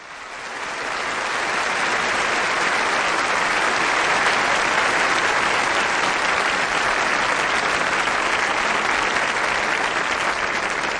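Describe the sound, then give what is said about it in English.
Sustained applause from an audience celebrating a couple's 60th wedding anniversary, swelling in over the first second and then holding as a thick, even wash of clapping for about eleven seconds. “Oh, I love that applause.”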